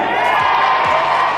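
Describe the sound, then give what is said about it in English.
Crowd of striking public school teachers cheering at a statewide strike rally in Melbourne, a loud, steady roar of many voices. The cheering is brief and unbroken, with no clear individual words. “That is the sound of striking teachers today in Melbourne.”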